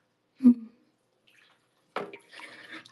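Water sloshing as someone gets out of a small bath: a short splash, then after a quiet pause a longer stretch of swishing and trickling water.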